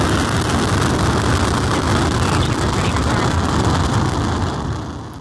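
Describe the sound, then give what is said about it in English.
A SpaceX Falcon 9 rocket lifts off on the Transporter 18 mission with a loud, dense, continuous roar and rumble. The sound holds steady throughout and eases only slightly at the very end. “Lift off of Falcon 9, goes SpaceX, goes Transporter 18. Vehicle is pitching downrange.”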